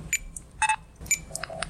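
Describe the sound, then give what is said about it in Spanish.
Electronic beeps from a supermarket checkout: a few short, clipped tones at differing pitches, spaced irregularly over a quiet low hum. “Este es el sonido de un supermercado.”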